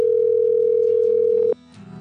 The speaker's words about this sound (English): Try to call him because he tried to call you.